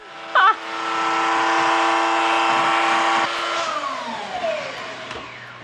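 Car engine, said to have about five gears, revving up through the gears. A loud, steady droning whine holds for several seconds, then eases off and falls in pitch toward the end.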